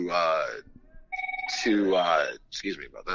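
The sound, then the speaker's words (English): A telephone rings with an incoming call, a brief warbling, pulsing electronic ring heard between and under a man's ongoing talk. “got a phone call coming in.”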